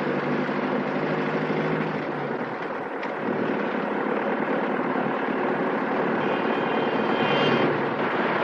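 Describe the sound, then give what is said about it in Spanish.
A car engine drones loudly and steadily as the driver shifts gear to accelerate in a 1957 drama film scene, a dense continuous roar with no clear breaks. “El hombre del bigote mira por el retrovisor y cambia de marcha para acelerar.”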